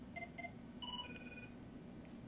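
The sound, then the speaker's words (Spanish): An incoming phone call rings faintly as electronic tones: two short beeps, then a longer tone pattern, over a low steady hum. “nos entró una llamada”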